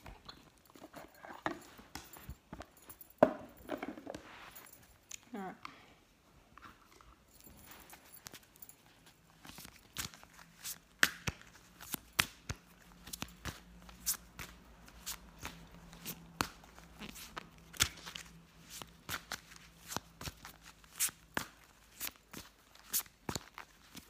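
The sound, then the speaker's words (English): Oracle cards are shuffled and drawn from a deck for a Halloween reading. Many sharp, quiet clicks and papery snaps come in uneven bursts throughout, with soft rustling between them and no voices. “All right, so I'm gonna do the card draw for the Halloween symbol of candy.”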